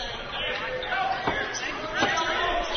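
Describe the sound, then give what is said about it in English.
Basketball dribbled on the court during a game, a couple of dull, thudding bounces heard under steady talk from a commentator. “Gets to dribble off the left wing.”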